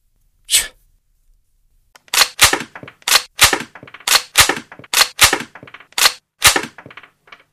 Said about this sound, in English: Oh, fuck. I just shot a fucking hole in the floor. I'm always doing that.